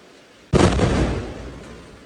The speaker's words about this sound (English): Gaza resident Jihad Madhoun captured this airstrike on a home in the camp on September 11th.